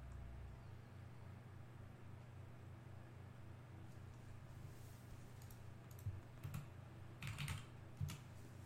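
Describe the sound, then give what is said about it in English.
Someone types on a computer keyboard, a faint patter of clicks over a steady low hum, with small bursts of keystrokes toward the end. “Let me type in 2020.”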